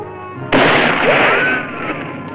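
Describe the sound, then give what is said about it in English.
A pistol shot fired at close range at a sheet of metal in a disused mine shaft: one sharp, loud report, then a sustained metallic ringing that lasts about a second before dropping away. “The bullet glances off the metal, leaving a dent.”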